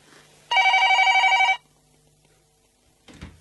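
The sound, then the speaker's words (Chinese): A telephone bell rings once in a single loud burst of rapid trilling lasting about a second, followed by quiet and then a brief low thump. “我听到警钟声，擘大眼，原来系电话响。”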